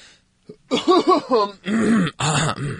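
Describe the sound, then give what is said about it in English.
Exaggerated, voiced throat clearing follows a faint short catch. Several rough, growling bursts come in a bumpy row, then two longer, louder rasping stretches end it. No speech is heard. “Let's give this the clear throat that it is due.”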